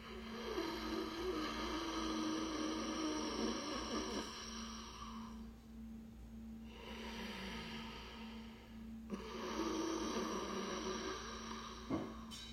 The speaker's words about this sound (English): It's just by engaging the epiglottis in the back of the throat. You'll hear the sound of your breath coming up. It almost sounds like a Darth Vader breath. I'll exaggerate it here for you to hear